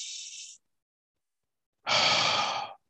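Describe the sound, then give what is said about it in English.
A deep cleansing breath: a short, airy intake, a pause of over a second, then a fuller, rushing exhale lasting nearly a second, both fairly loud and alone. “Just take a deep breath. Well, that's called a cleansing breath. This is it.”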